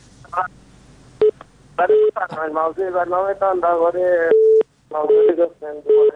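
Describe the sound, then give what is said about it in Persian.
Telephone connection tones as a caller from Balkh province, Afghanistan, is put through: a few short, steady electronic beeps and one longer held tone, broken up by voices talking. “یک تماس را از ولایت بلخ داریم.”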